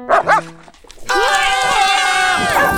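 A loose puppy aboard a ship gives a few quick yips, then a drawn-out, wavering high whine. No clear crashes of knocked-over objects stand out.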